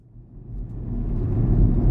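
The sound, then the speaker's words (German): A car drives along a country road in County Sligo, Ireland, giving a low engine and road rumble that builds steadily in loudness over two seconds, with no voices. “Kevin Barry fährt durch die irische Grafschaft Sligo”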